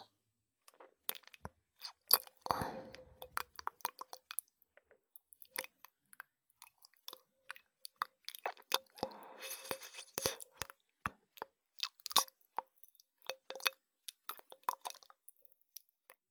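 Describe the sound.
Wet smacking, squishing and clicking sounds are made with a Ramune soda bottle, many quick, irregular, faint clicks with short bursts of denser squelching and no talk.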